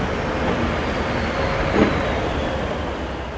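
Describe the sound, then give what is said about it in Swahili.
Public transport buses move through Berlin street traffic, a loud, steady low rumble of engines and road noise with a brief swell near the middle. “Mji wa Berlin nchini Ujerumani, harakati za kila siku zikiendelea, ambapo magari ya usafiri wa umma yapo kwenye pilika za kuwasafirisha abiria.”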